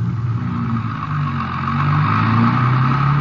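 Car engine droning as the vehicle drives off on the road to El Paso after a hitchhiker climbs in: a steady, mid-pitched hum with a low rumble that grows slightly louder partway through, with no voices.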